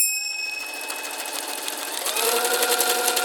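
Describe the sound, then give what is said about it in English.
Sewing machine stitching smelly socks: a fast, continuous whirring hum with rapid ticking that turns a little louder and busier partway through. “Can you sew, adventurers? Let's pretend to sew Kenny's stinky socks.”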